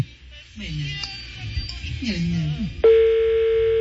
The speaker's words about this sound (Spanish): Marcando otro número.